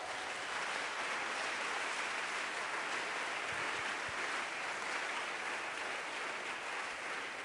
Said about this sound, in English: Give the Lord a wonderful clap of praise.